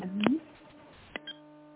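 Telephone line tones as a sanatorium call is transferred to another extension: a short electronic blip, then a click and a steady buzzing tone that holds to the end.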